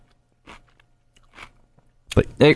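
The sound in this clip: A person bites into a pickle, with two short, faint crunching chews spaced apart, followed by a voice speaking.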